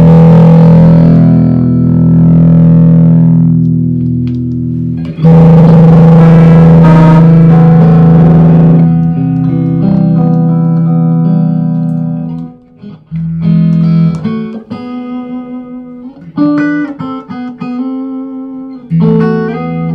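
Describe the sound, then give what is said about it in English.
An electric guitar with single-coil passive pickups rings out in loud, sustained, slightly distorted chords, then after a brief pause plays a series of short picked notes and chords, with no talking. “Listen, those are single coil passive pickups.”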